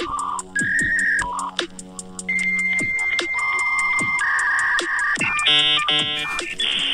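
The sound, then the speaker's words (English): A dial-up modem connecting to the internet: a loud, continuous run of steady high tones, warbling beeps and stepped chirps that shift from one pitch to another, with no talk. “Enter my password. And we're about to dial up.”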